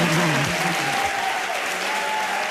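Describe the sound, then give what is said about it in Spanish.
Dense applause and cheering from a live audience at an event, sustained at a steady, loud level from start to finish. “Vamos a pedir que hagan ruido,”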